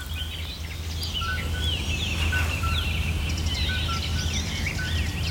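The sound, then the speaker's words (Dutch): Many sparrows and swallows chirping and twittering outdoors, picked up by an outdoor microphone; quick, high, overlapping calls stay fairly faint above a steady low rumble. “dit is de buitenmicrofoon met allemaal mussen en zwaluwen.”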